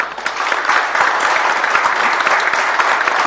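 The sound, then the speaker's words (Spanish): Applause from an audience interrupting an official speech about new flight routes in a Patagonian province: dense, steady clapping at an even loudness for the whole clip, with no voices heard over it. “aplausos”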